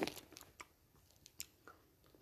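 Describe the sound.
Soft chewing of a marshmallow-flavoured jelly bean, with faint, sticky crunches and clicks spread unevenly across a short, quiet stretch.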